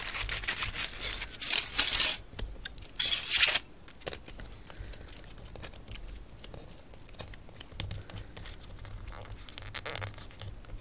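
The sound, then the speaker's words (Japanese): Excess material being cut away, with loud crinkly snipping and tearing bursts over the first few seconds, then quieter scratchy rustling for the rest, with no talk. “余分なところはカットしてしまいましょう。”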